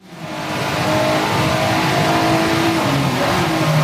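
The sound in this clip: A race car engine from a racing video game on a wet track, revving hard. It swells up within the first moments, then holds a loud, continuous, buzzing drone whose harmonic pitch shifts slightly up and down throughout.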